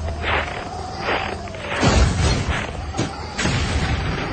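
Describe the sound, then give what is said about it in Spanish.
A tank gun fires in a street battle during an invasion, giving deep, heavy booms over a steady droning background with faint chirping tones. “El disparo del tanque rompe la monotonía de la marcha.”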